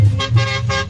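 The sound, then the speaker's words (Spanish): A big truck horn honks in a few short, loud, blaring blasts packed into about a second, with no talk. “¡El pito grande!”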